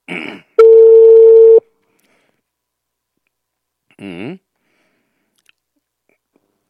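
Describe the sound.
A telephone ringback tone while placing a call to an agriculture ministry office in Oxapampa: one loud, steady tone lasting about a second, then after a pause a brief burst of voice.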